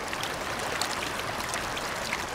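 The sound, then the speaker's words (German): Forceful rushing of a young glacier-fed mountain river surging through a wide gravel bed in an upper alpine valley: a steady, loud, unbroken roar of churning water with no voices. “Wasser prägt das Terrain im oberen Gasterntal. Mit Wucht schieben sich die Fluten der jungen Kanda durch das breite Geröllbett.”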